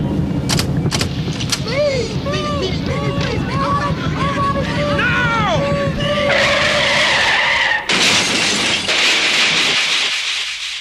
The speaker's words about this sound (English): When I give the signal, toss them out, and I'll drive this heap right through the barrier.